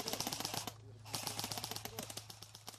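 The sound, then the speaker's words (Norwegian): Gunfire from uniformed civilians shooting at targets during military training among trees: a rapid, fairly faint run of many sharp cracks in close succession. “Sivilister iført uniform for anledningen rykker fram mellom trærne og skyter på markører foran seg.”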